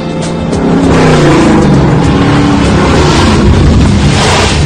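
A car engine roars loudly and steadily as the car is driven hard, a thick, continuous, revving drone with no pauses and no talk.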